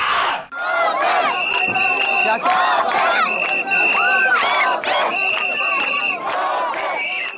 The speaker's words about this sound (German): So hörte es sich vor über 2 Jahren im September 2015 an der Grenze zwischen Serbien und Ungarn an. Damals versuchten tausende Flüchtende über die sogenannte Balkanroute nach Nordeuropa zu gelangen.